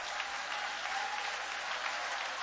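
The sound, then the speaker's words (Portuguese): Applause at a church worship gathering: many hands clapping in a steady, even wash that keeps a constant moderate level throughout. “Quer receber mais um pouquinho? Quer sentir mais presença? 2 minutos de palmas e glórias para ele.”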